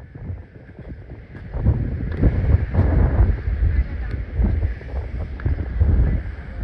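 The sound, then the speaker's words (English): Strong wind sweeps over high waves at sea aboard a boat, a continuous low, blustery roar buffeting the microphone with surging water noise, loud and steady and building after the first second. “Look how high we are. That's how windy and how high the waves are.”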